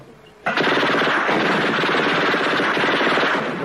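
Automatic gunfire in a drama scene: a loud, dense rapid burst that starts abruptly and keeps going for about three seconds without pause.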